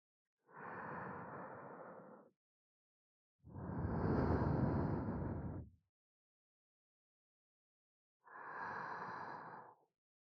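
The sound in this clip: Slow breathing out, guided as a calming exercise: three long, airy breaths separated by silence, the middle one louder and fuller than the other two.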